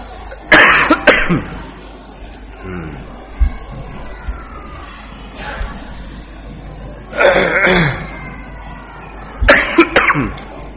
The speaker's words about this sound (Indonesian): sudah ada batuk dari kemarin.